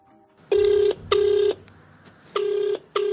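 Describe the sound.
A telephone rings in four short electronic tone bursts, each a steady buzzing tone lasting under half a second, grouped in two pairs separated by a brief pause, with no voices.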